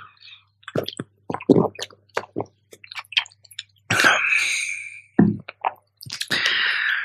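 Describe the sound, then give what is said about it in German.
Someone pauses to take a drink, making a run of short, wet clicks and swallows broken by two longer breathy, rushing stretches, with no talk. “Sekunde, ich muss mal kurz was trinken.”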